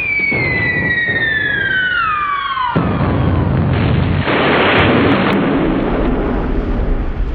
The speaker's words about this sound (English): The great dry desert shatters from miles in every direction from the missile's impact blast.